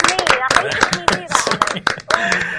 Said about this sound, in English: See, a round of applause for Charlotte.